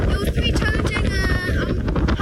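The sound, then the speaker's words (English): Strong, biting wind on a mountain peak roars and buffets the microphone in a constant, loud, rough rumble with fluttering gusts. Voices are partly buried underneath. “On top of the peak, the biting wind howls around and almost takes us off our feet.”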